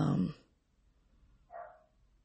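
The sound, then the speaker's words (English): Two brief dog barks, faint and separated by about a second of near silence. “I'm sorry, the dogs are barking. It's distracted me.”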